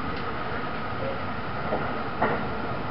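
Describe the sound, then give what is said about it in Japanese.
A Thunderbird limited express train runs on rails with a steady, even rumbling drone. A couple of faint clicks rise briefly above the drone. “今日は特急サンダーバード50号をご利用くださいましてありがとうございます。”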